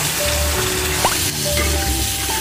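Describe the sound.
Pig trotters stir-frying hard in a wok give a loud, steady sizzle, with a brief scraping stir around the middle.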